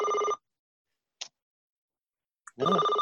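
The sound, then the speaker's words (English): An electronic telephone rings in ring bursts at the start and end, with a couple of faint ticks in the silence between. Each ring is a bright, steady, harmonic trill. “Is that me? Someone's ringing.”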